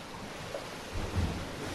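Ocean waves at the seashore in early morning before any bathers arrive, a steady, broad roar of surf that swells slightly partway through and then settles back to an even wash.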